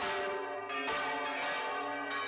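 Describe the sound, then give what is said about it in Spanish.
Church bells ring loudly and continuously, their rich metallic tones overlapping into a dense, sustained clang with fresh strikes renewing the resonance throughout. “Se encontraba sumido en el desvanecimiento cuando las campanas de la iglesia tañeron, asediando su sueño.”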